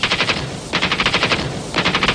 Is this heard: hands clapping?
no